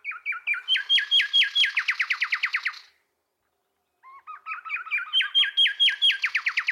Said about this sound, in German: die Roststreichsgasmücke, die ich jetzt noch frech hier einbringen möchte, weil die so schön singt. So hört sich der Gesang nämlich an.